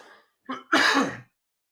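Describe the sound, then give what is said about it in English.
One person coughs: a short huff, then a single loud, rasping cough burst, with silence after. “I'm getting ready to cough, excuse me,”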